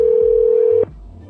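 A telephone tone sounds while calling a seller about an item for sale: a single steady, mid-pitched tone holds for under a second, then cuts off abruptly and leaves only a faint low hum.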